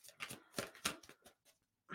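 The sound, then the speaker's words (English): Cards being shuffled make faint, papery riffling bursts: several quick flicks in a row, a short pause, then another burst. No one speaks. “Okay, let's look at some cards here.”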